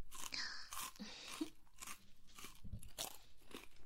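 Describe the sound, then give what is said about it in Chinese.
Potato chips crunching as someone eats: a run of crisp, crackly bites and chews in an irregular rhythm, faint but distinct, with no talk over them. “这边还有洋芋片要吃吗？也是挺好吃的，看样子啊。你是饿坏了呢？”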